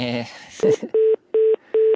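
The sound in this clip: Keypad tones as a phone number starting with 6 is dialed: a brief voice, then four even, steady beeps, the last three evenly spaced with short silences between them.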